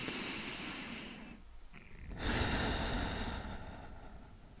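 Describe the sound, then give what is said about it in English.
Someone takes a slow, deep breath in and out. The breathing is a soft, airy rush with a brief lull in the middle and a fuller exhale after it. “Take a deep breath in and a deep breath out.”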